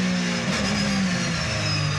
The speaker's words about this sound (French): Je lève un peu ici, 210 km/h.